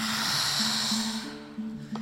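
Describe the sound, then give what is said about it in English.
A forceful open-mouthed yoga exhale, the lion's breath, makes a long breathy hiss that holds for about a second and then fades, over soft steady tones. “Inhale, elbows bend. Exhale, lion's breath.”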